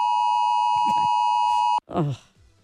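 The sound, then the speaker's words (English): A steady high electronic alarm tone sounds alone for almost two seconds and then cuts off abruptly, with voices talking briefly over its end and afterward. “Oh, that was that 2 o'clock alarm.”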